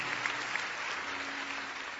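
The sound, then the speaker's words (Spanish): A church audience applauding during a service: dense, continuous clapping that holds an even level for the whole short stretch. “Fuertes aplausos para Dios.”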